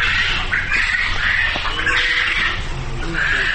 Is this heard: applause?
no